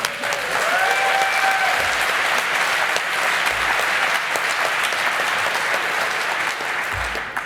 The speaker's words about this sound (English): So could we have a huge round of applause for the translators?